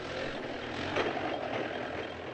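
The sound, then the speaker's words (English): Heavy trucks loaded with apples roll across the border between Syria and the Israeli-controlled Golan Heights, giving a steady, low engine rumble with broad road noise and no clear breaks. “Trucks trundled across the border that separates Syria from the Israeli-controlled Golan Heights, bearing the fruit”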